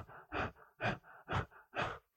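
A person demonstrates habitual rapid breathing, the pattern of people who link breath holding to panic, asthma or anxiety attacks. Four quick, evenly spaced, airy gasping breaths sound faint and alone.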